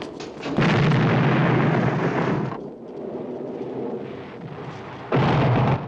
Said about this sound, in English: He then throws a satchel charge, and he and his colleague run clear as the explosion blows out the door.